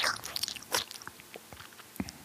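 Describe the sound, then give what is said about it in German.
Crunchy chewing on a piece of baguette: a few crisp, sharp bites and crunches, irregular and fairly quiet, with soft mouth sounds between them and no talking. “Du hast dich ganz gut im Griff gerade mit deinem Stückchen Baguette.”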